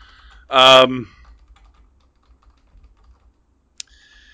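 Typing on a computer keyboard to enter a search query: many faint, soft key taps spread over a few seconds after a brief voiced sound, with one sharp click near the end.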